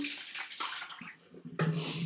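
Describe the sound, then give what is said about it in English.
Leftover coffee being dumped out of a full pot makes a splashing liquid pour in uneven bursts. It dips briefly, then returns as a louder, steadier gush. “this is why it's really good that we made a whole pot of coffee, because we can just dump this out.”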